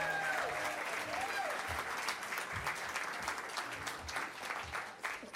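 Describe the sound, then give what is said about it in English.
A concert crowd applauding and cheering after being urged to make noise: dense, steady clapping runs throughout, with shouting voices and a brief whistle near the start layered over it. “Make some noise if you're enjoying this incredible band.”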